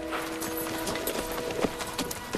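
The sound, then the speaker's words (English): Hoofbeats of a horse moving about as it is unhitched and mounted, with faint, irregular clip-clop steps over a quiet, steady background. “Jordan's face falls as Tyler turns away to unhitch his horse.”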